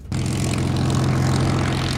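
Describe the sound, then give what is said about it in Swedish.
Engine drone of a Supermarine Spitfire propeller aircraft: a loud, steady, low-pitched roar with a rough, throbbing texture that starts abruptly and holds constant throughout. “Ja, en vaskeäkta Spitfire. Hur var det att sitta upp i detta historiska flyet?”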